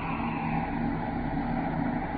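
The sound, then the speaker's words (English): A spaceship's braking rockets fire at one-quarter power as the ship descends toward an asteroid, giving a dense, steady roaring rumble that stays even and unbroken throughout. “Braking rockets, one quarter. Aye, sir. Braking rockets, one quarter.”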